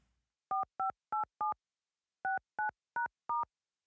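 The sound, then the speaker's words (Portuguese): A telephone number being dialed on keypad tones: eight short, evenly spaced beeps in two groups of four, separated by a brief pause, with silence around them. “Sim, e hoje eu vou ligar para um menino muito querido, o Ali.”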